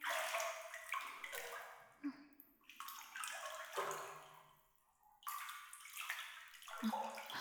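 Hot bath water sloshing and running in a tub, a faint continuous wash with shifting swells and a few soft drips.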